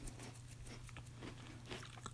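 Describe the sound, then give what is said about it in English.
Soft crunching bites and chewing of a store-brand cookies and cream toaster pastry: a few faint, brief crunches spread over a quiet, steady background. “Right now I'm going to take a bite of this Pop-Tart right now, cookies and cream.”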